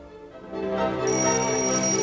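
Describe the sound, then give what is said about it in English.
A square-faced bedside alarm clock rings early in the morning with a steady electronic tone. Partway through, a shrill, high ringing layer joins it, and the sound continues with no voices. “reaches out to turn off her square-faced alarm clock, which reads 4:30”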